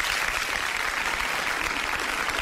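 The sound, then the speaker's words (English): Applause from an audience for a player drafted into the Big Three basketball league: a steady, dense wash of clapping that holds an even level for the whole stretch, with no break or pause. “Let's give Sean Williams a round of applause.”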